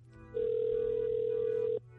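A telephone tone as a call is dialed and rings: one long, steady, level electronic tone of about a second and a half, clear and alone with no talking.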